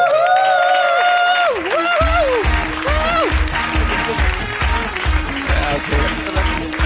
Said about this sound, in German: dein Applaus